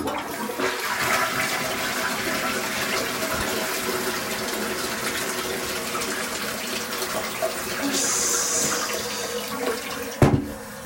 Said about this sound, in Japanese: 流してきます。